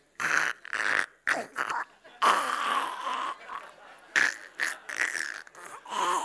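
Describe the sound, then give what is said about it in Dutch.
A voice imitates the laboured breathing of a man with bronchitis and emphysema: many harsh, rasping, wheezy breaths in an uneven rhythm, fairly loud, separated by short gaps. “Oh, had bronchitis. He breathed like this.”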